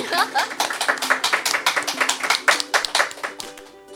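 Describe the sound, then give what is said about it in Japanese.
An audience claps at a live event: many quick, sharp hand claps in a fairly even stream, with voices talking over them. “みんな拍手して”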